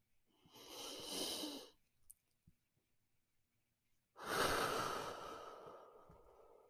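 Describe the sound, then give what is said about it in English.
A person breathes in slowly and then out. A long, soft, airy inhale is followed, after a quiet pause, by a longer and fuller exhale, with no talk. “Take a moment. Breathe in.”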